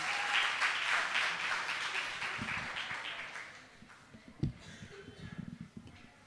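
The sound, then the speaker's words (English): An audience claps to welcome a speaker to the front, a broad, steady round of applause that gradually thins and fades, leaving a few scattered soft knocks. “Why don't we give her a big hand? Welcome her.”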